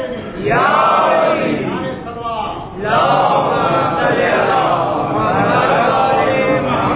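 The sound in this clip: A large crowd chants Allahu Akbar in reply to a takbir call at a religious gathering. Many voices rise together in two long, loud surges, the second following a brief dip.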